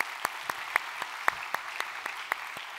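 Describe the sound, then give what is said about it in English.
A church audience applauds to welcome visitors, the claps faint, sparse and evenly spaced in a steady rhythm. “So if you would take a moment, put your hands together, welcome them to our time of study here today.”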